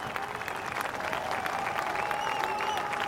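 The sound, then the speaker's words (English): A golf gallery at the Open Championship applauds the final pairing as they go out. The clapping is loud, continuous and even throughout. “Rousing welcome for the final pairing going out.”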